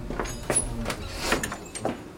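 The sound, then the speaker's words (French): A door is shut in a village café, heard as a few soft knocks and thuds at irregular intervals, faint against a quiet background. “Fermez cette porte, mon père.”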